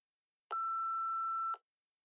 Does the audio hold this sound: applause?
no